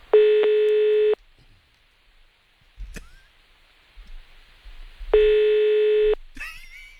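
Ringback tone of an outgoing telephone call: two steady, mid-pitched one-second tones separated by a long pause, with faint background sounds in between.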